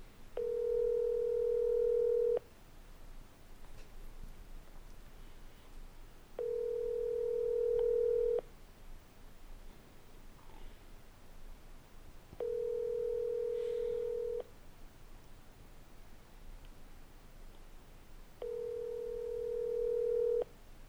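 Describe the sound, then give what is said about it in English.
Telephone ringback tones sound while a call is placed to reach a voicemail: four long, steady, clear tones of about two seconds each, separated by regular gaps of near silence. “this is the part of the show where we call Chad 90 and leave him a voicemail because he probably won't answer.”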